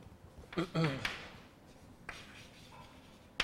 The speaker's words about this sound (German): Gut, also das, was ich jetzt in Worten gesagt habe, schreiben wir jetzt in ein paar Punkten auf.